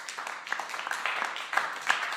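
Applause from several hands, a dense irregular patter of moderate loudness with a few sharper claps standing out toward the end.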